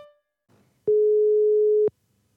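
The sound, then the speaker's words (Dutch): One loud, steady ringing tone of an outgoing phone call lasts about a second. It begins and ends abruptly, with near silence before and after. “zullen we eens even bellen? Ja, we gaan bellen. Bellen met een diabetesexpert.”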